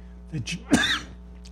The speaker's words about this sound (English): I apologize for drinking in front of you, but I've developed this cough.